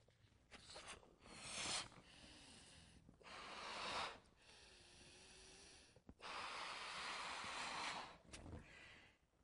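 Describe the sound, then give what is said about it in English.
Breath forcefully blown into a balloon: a few long, breathy rushes of air, each swelling and then stopping, with short quiet gaps between them. “this is full of my breath. It's come out of the very depth of my being, and there's part of me inside this balloon.”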